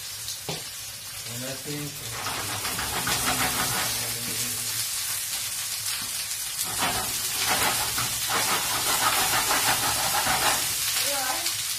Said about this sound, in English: So, just shaking the pan around to distribute the veg. I'm just moving stuff around.